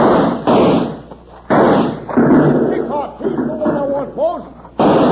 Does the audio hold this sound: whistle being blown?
no

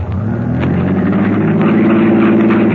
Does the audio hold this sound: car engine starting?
yes

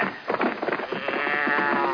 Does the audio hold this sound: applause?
no

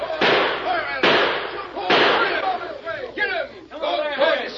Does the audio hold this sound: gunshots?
yes

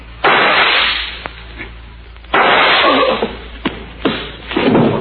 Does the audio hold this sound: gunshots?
yes

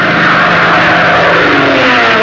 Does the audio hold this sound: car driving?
yes

